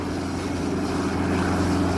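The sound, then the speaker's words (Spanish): A reconnaissance and transport helicopter descends toward the surface of a ship stranded since Friday in a Galician estuary during bad weather, giving a steady, unbroken rotor and engine drone with a low hum that holds an even loudness throughout. “El helicóptero de reconocimiento y de traslado que bajaba prácticamente esta mañana hasta la superficie del buque Blue Star, que lleva varado desde el viernes en esa zona.”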